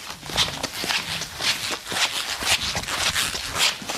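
Footsteps of a person walking across a floor in dry shoes: a steady series of scuffing thuds at an even walking pace, heard alone.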